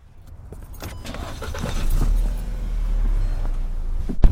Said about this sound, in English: So today I'm riding along in a white Jetta